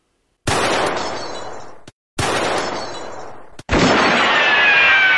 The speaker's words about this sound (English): You didn't fire a single shot, but someone did, and they got all three bottles.